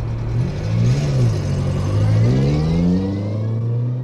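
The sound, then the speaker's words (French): A small Renault 4L official car drives off, its engine revving loudly with the pitch climbing as it accelerates, then settling into a steady drone. “Ils embarquent dans leur voiture de fonction, une Renault 4L.”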